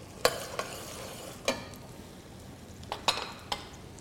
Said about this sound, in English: it's a matter of adding our bacon. Adding a little of our ham hock, we'll use some of it for garnish.